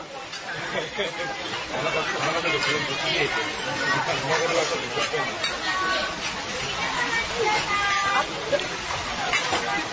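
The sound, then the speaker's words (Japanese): Ambience inside an okonomiyaki restaurant in Hiroshima: a steady murmur of many people chatting over a continuous hiss, with no single voice standing out. “次にこのお好み焼き屋さんの様子です、どうぞ。”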